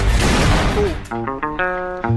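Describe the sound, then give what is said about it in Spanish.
An explosion-like blast from a political campaign video in which a candidate aims a rifle at targets: a dense, roaring burst fills the first second, then gives way to talk. “Y ella se la ve en el video, ¿no? Apuntando con un rifle a estas propuestas que las dinamita.”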